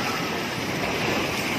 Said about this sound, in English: That's the sound of a tsunami blasting through low-standing bayside buildings in the city of Palu, Indonesia.